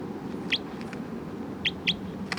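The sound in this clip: A bird gives a few short, high chirps at irregular intervals. Each call is brief and bright over a low, steady background hiss.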